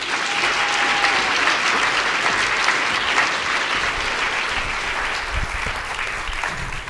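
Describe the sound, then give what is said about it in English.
Loud, steady audience applause welcomes guests to an evening conversation event at the JCC. Dense clapping fills the whole stretch without a break and eases slightly toward the end. “Let's give them a warm welcome to the JCC.”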